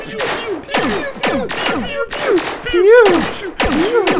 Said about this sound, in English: All right, you guys, shoot your lasers at each other.